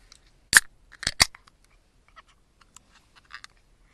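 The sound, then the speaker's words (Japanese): A can of Spring Valley beer cracks open with one sharp snap, then two more quick cracks close together. A few faint ticks follow in near silence. “えー、スプリングバレーの開けていきたいと思います。”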